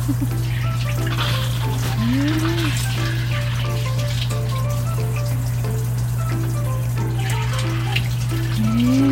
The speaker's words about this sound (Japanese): あ、お湯出た出た出たよ、お湯が出たよ。